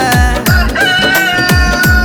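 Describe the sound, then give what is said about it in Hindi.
A rooster crow rings out over a steady, rhythmic beat with thumping bass hits at regular intervals and sustained tones running beneath it. “मुर्गा कुकुण कु मत बोले,”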